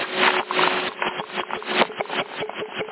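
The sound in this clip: A handheld CB radio microphone with loose screws and a loose capsule is handled and moved, giving a continuous muffled rubbing and scraping. The rattle is uneven, with irregular knocks throughout.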